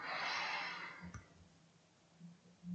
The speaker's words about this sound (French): Puis je vous propose, vous relâchez toutes vos tensions, de gonfler votre ventre avec intention en inspirant par le nez